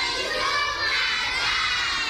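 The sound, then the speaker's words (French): Children in khaki uniforms shout and play during primary school recess in a downtown schoolyard of the capital, a dense, continuous crowd of high, excited voices that never lets up. “Des enfants en uniforme kaki jouent pendant la récréation.”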